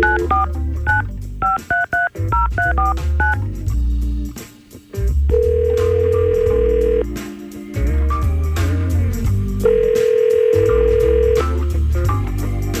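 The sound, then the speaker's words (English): Touch-tone dialing beeps as a radio host places a call: a quick series of varied tones, then two long, steady ring tones separated by a pause. “All right, so let's try to call Brian right now and see what's going on.”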